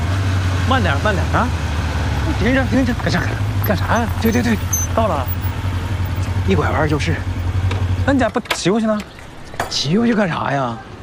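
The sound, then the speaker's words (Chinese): A big motorcycle idles with a steady, low, droning hum under people talking, then the engine cuts out after about eight seconds while the voices carry on. “人看你骑这么大摩托来，不高要价吗？”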